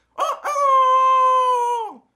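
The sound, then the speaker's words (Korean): A rooster crows at dawn alone: a short rough opening note, then one long sustained bright call that holds steady before dropping off at the end. “어느새 새벽닭이 아주 촐랑대게 울어댄다.”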